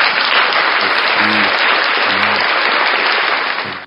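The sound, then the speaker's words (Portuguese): Applause at a worship service, offered to the Lord: dense, even clapping from many hands that stays loud throughout. Brief low hums sound underneath a few times, and the clapping drops away at the very end. “Esse aplauso são para o Senhor.”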